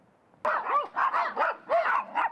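Dog barking: a guard dog met while going door to door gives a rapid series of several sharp, mid-pitched barks with whining tones, loud and alone.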